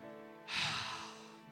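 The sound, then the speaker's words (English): A single slow, deep inhaled breath: a soft, airy rush that swells and then fades, over faint sustained background music. “Now breathe in.”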